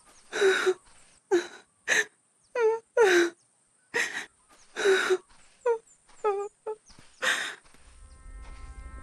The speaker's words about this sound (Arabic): لما تبكي سيدة؟